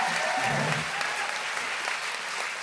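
A live audience claps steadily as an anthology editor is welcomed onto the stage as a guest, a fairly soft, even wash of applause without breaks.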